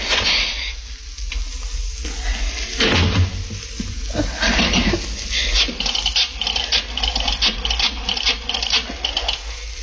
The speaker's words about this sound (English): Key. Where's my key? Darn the lock.